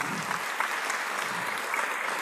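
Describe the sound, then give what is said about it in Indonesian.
An audience claps at a motivational religious talk on stage. The applause is dense and continuous, a steady, fairly loud wash of many hands clapping throughout. “Luar biasa, tepuk tangan semua teman-teman.”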